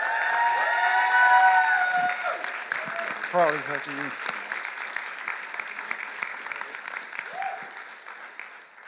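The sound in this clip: A church audience applauds to welcome a pastor, a steady wash of clapping that slowly tapers off, with a voice speaking over the opening moments.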